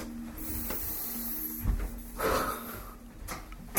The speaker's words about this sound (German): Ich muss mal das Fenster aufmachen, so stickig hier.